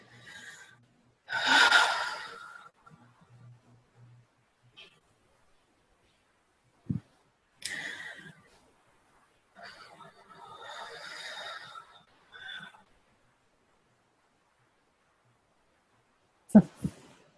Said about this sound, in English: So just breathe into that.